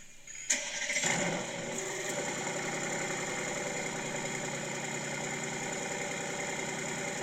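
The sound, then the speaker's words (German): A car with a dual-clutch transmission starts with a short crank and a sharp catch. The engine then settles into a steady, even idle that carries on alone without talk. “Kannst du das Starten nochmal machen? Wo der den anmacht?”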